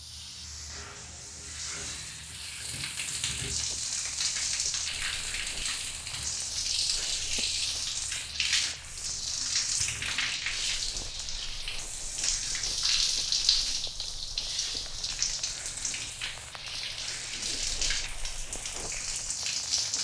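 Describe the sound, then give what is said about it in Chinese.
A toilet being flushed: a continuous rush of splashing water that holds steady at moderate loudness for about twenty seconds, with no voices. “我要冲水喽。”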